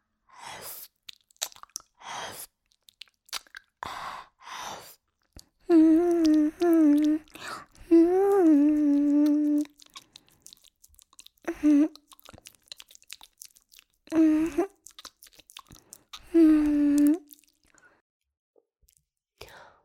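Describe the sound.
Someone chews a crunchy chrysanthemum-shaped snack, making many sharp, crisp crunches in an irregular rhythm, broken by stretches of a person talking.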